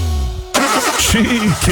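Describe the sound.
A car engine breaking down turns over abruptly, then chugs and sputters in rough, uneven bursts.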